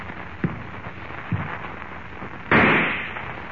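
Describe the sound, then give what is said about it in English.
A single loud rifle shot bursts out suddenly and decays over about a second, preceded by two faint thuds over a steady background hiss. “Suddenly, the rifle in Harmon's hands thunders its message of death”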